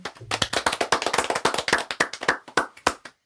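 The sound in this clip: Audience applause for striking railway union workers: many sharp hand claps in a fairly steady rhythm, lasting about three seconds and then stopping abruptly, with no talking.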